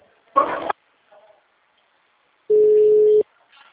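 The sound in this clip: A steady, mid-pitched electronic beep marks a telephone call transfer to a customer service attendant, held for under a second after a short noisy burst and a pause.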